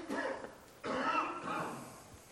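A person coughing: a few rough, throaty bursts in quick succession, fairly faint.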